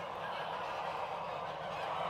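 Geese honking on a goose farm in Lower Saxony during a vaccination of about 1,500 birds: a dense, continuous wall of loud overlapping honks and cackles with no pause.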